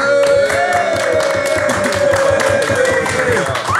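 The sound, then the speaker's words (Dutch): Loud, continuous audience applause with dense clapping throughout, joined by crowd noise and a steady held tone underneath. “Ricardo, moet je eens horen hoe hard hier geapplaudisseerd wordt. Dat is niet normaal.”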